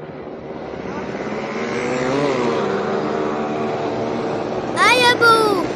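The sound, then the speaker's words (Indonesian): A motorbike engine drones as a mother rides fast in a children's story, a steady, loud buzzing hum whose pitch wavers and shifts throughout. “Ibu kok naik motornya lambat sih? Aduh Dodi, ini ibu sudah ngebut. Tambah cepat lagi Bu, nanti Dodi ditinggal teman-teman.”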